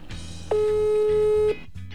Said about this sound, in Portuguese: Vou ligar para uma pessoa aqui, gente.